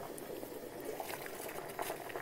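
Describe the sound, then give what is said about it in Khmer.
Water boiling in a cooking pot: a steady, dense bubbling hiss with small pops scattered throughout, continuous and fairly even in loudness. “តោះតោះពុះហើយ អូពុះបានណា”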